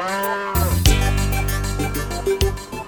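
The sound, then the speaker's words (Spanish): A Holstein cow mooing: a loud, low, drawn-out bellow with rich harmonics that swells and holds for over two seconds. “Tal vez en Holanda con las opulentas vacas Holstein.”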